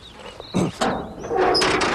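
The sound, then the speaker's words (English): A livestock trailer door on a trailer holding mules being opened: a few short, noisy clanking bursts, then a longer rough scraping rattle over steady background noise. “And he'll get the door.”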